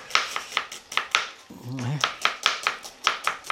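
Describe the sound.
A knife cuts an onion with rapid, evenly spaced strikes. The chopping pauses briefly while a voice sounds, then carries on in the same quick rhythm.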